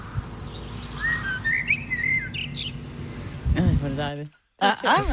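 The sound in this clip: A blackbird sings a pop tune in a series of clear whistled, chirping phrases. Toward the end, voices talk over harmonic sounds, broken by a brief moment of silence.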